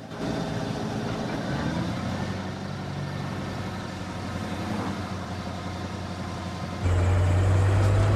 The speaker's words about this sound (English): Santiago drives his pickup truck. As Robert vents his grief, he sees the pickup truck approaching.